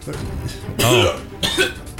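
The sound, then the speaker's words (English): A voice imitates a hacking cough with two harsh, raspy bursts, the first longer and the second shorter, set among other vocal sounds. “So she's just hacking cough like”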